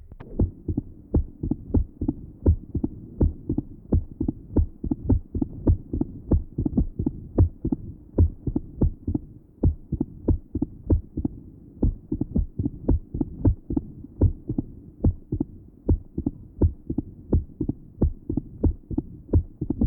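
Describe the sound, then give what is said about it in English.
Heart sounds recorded at the left sternal edge, with a loud first sound and an opening snap. Many low, regular thumping beats follow each other at a quick, even pace over a faint hum. “Taken at the left sternal edge, note the loud first sound and the opening snap.”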